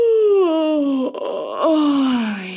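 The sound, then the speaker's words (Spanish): A loud, drawn-out human yawn, a moaning voiced tone sliding steadily downward in pitch, breaking off briefly and then resuming with a second falling glide. “Otra genialidad que se le ha ocurrido al cuerpo es bostezar.”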